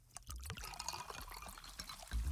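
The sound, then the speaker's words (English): Fizzy liquid pours from a can of Pepsi, a soft, steady trickle and splash of soda that runs for about two seconds, with a few low thumps near the end. “Go ahead, crack open a Pepsi.”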